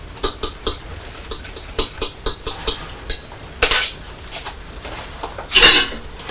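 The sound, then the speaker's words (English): A plate of pet food and a bowl of water clink as they are set down: a series of sharp, light clatters, then a louder scraping clink near the end. “Plate of food, bowl of water, Purdy.”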